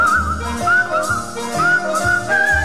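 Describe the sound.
A whistled melody rides over the instrumental backing of a played song, its clear, pure tone gliding and wavering through a cheerful tune above a steady, rhythmic accompaniment.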